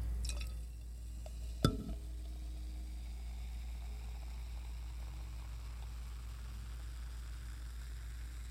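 Beer is poured from a bottle into a tulip glass, and a single sharp clink of glass stands out early on. A faint, steady trickle follows over a low background hum.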